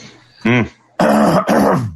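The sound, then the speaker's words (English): A person clears their throat: a short voiced grunt, then two loud, harsh rasping bursts in quick succession. “I heard the throat clear.”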